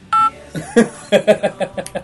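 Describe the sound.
A telephone keypad tone sounds once as a number is dialed, followed by a run of short, uneven tonal blips of varying pitch.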